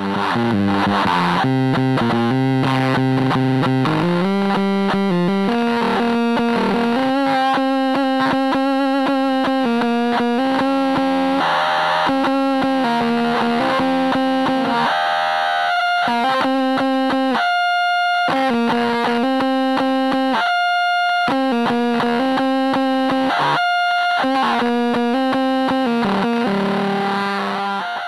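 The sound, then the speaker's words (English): The Total Sonic Annihilation 2 guitar pedal loops effect pedals back into themselves, producing loud, heavily distorted feedback drone. It churns with pulsing, chopped notes and shifting pitches, and plays continuously apart from a few brief dropouts. “TSA2 works on a simple premise. What if effect pedals were patched back into themselves? The TSA2 creates a controllable feedback loop, causing your pedals to cycle back on themselves,”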